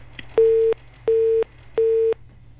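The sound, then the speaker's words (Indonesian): Busy tone after a phone call is cut off: three steady mid-pitched beeps of equal length with even gaps, clear and alone over a faint low hum. “Oke, dua kali terputus Bu Sumbok yo.”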